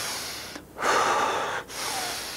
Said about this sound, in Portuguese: Então você começa a expirar.